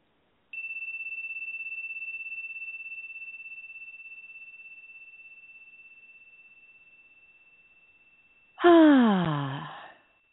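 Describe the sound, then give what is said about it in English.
During a guided meditation, a long pure ringing tone sounds and slowly fades for several seconds. Near the end comes one loud voiced sigh, an audible exhale that drops in pitch and then trails off. “Let's begin with a few breaths and getting in our bodies.”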